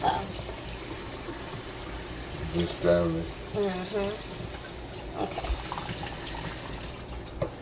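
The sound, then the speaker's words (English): Running water rinses fruit in a bowl during a baking-soda wash, a steady hissing splash with a few louder swells; a voice is briefly heard over it. “Kind of hang your bowl over to the side so that you can, you know, get the excess baking soda out. Okay. As you're rinsing it,”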